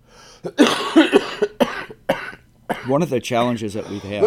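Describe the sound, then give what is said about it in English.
A man with a chest cold coughs several times in harsh, loud bursts, and then a man talks over the noise. “one of the challenges I have is talking while this guy's coughing. I got a chest cold.”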